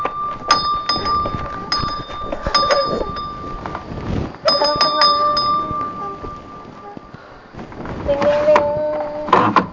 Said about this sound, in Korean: 종을 쳐요, 땡땡.